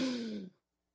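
A slow exhale after a deep breath: a half-second breathy sigh with a faint voiced hum that tapers quickly into silence.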